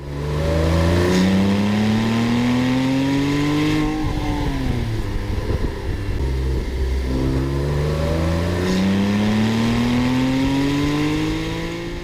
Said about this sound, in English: Here's a Porsche 911 without a turbo, what's called naturally aspirated.